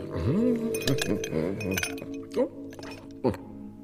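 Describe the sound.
Three small ice cubes clink into a glass, producing a few sharp, bright clinks scattered among sustained tonal sounds that run through the whole passage.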